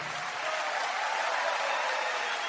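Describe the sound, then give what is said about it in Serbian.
Applause from a television show audience greeting a guest: dense, even clapping from many hands, loud and sustained throughout without a break. “veliki aplauzom pozdravite gospodina Gorana Sultanovića.”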